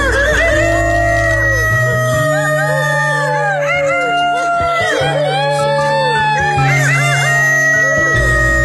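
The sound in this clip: A person imitates a rooster crowing in a crowing contest, giving several drawn-out, wavering crows over steady sustained tones, with no other speech.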